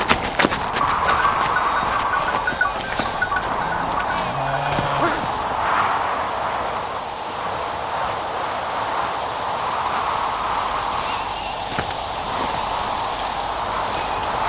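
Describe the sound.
Hoofbeats and shuffling of a herd of livestock being driven along, a steady stream of many overlapping clopping steps over a broad, continuous rustling noise, with no pause and no clear voices.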